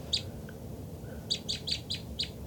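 Birds give short, high chirps as they fly in: one early call, then a quick run of five evenly spaced chirps, faint over a low background rumble.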